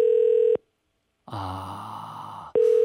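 An outgoing call rings on the line: a steady low electronic tone sounds, stops, and returns after a gap that holds a different, noisier sound.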